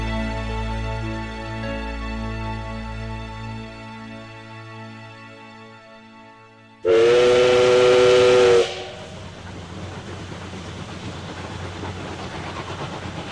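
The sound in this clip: A steam train whistle at Victoria railway station gives one loud, sustained blast of about two seconds with a hissing edge, followed by steady hiss. Before it, a steady tonal drone plays.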